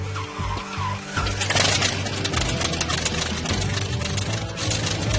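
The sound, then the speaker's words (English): An airplane-engine-powered snow plane starting up on a frozen lake: a rough, loud engine roar with a low droning hum that surges after a moment and stays steady and strong. “Before it even travels a foot, the snow plane's attracting a lot of attention on the lake. People just want to come down and see what all that noise was.”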